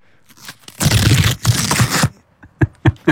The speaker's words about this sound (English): It is time for a live unpacking of the Panini 2026. Stickers.